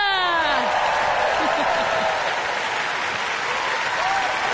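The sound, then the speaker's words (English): Audience applause for the BBC Philharmonic Orchestra forms a dense, steady patter of many hands clapping, with a few whoops and high shouts at the start. “Now, let's give a big round of applause for my boys. And the BBC Philharmonic Orchestra and the National Youth Music Theatre.”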